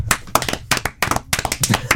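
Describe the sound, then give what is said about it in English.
Hands clap in quick, uneven clusters, several sharp claps bunched together with short gaps between bursts, loud and crisp throughout. “We have to clap.”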